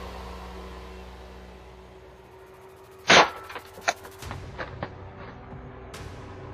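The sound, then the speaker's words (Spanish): Gunshots from a man firing at devices the police sent in after him: one loud blast, then a second sharper crack, followed by a few fainter pops, with no talk over them. “En lugar de obedecer, el tipo le disparó a los aparatos enviados por la policía.”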